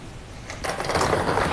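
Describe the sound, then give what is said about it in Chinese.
A lottery drawing machine starts up for a live draw and its numbered balls begin spinning. A steady low rush swells after about half a second into a continuous rattling whir. “那此刻我们将正式开启本期江苏体彩7位数直播摇奖，请工作人员启动摇奖机。”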